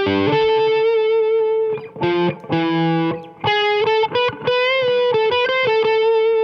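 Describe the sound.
An electric guitar with heavy distortion plays a sustained, singing lead line of held notes and short runs over an E7 chord, landing on G sharp, the raised seventh of A harmonic minor. It plays loud and alone.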